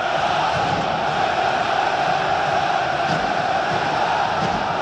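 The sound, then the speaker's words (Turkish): Fenerbahçe supporters chant intensely in the stadium at Kadıköy during a league match against Beşiktaş, a dense, steady roar of many voices that holds an even, loud level without breaks. “Yoğun tezahürat. Fenerbahçe taraftarının takımına desteği.”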